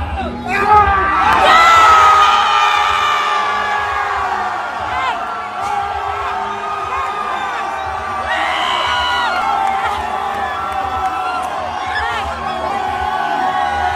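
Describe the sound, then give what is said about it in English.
A large crowd cheering, whooping and shouting in a continuous stadium-like roar. The noise swells near the start and again midway. “That sounds like a stadium. I mean, it sounds like an absolute stadium. That sounds like a football game.”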